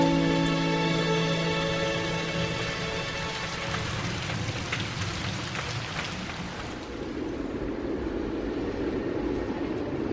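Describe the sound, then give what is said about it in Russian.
Rain falls outside a window in a steady, dense patter with a soft hiss that continues evenly through the whole stretch, with no voices. “За окном дождь.”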